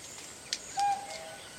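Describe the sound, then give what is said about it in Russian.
A cuckoo calls once near tourists camped by a tent and campfire in a film scene: a brief mid-pitched note after a sharp tick, faint over steady background hiss. “Девушка, услышав кукушку, смотрит вдаль. Кукушка, кукушка, сколько мне жить?”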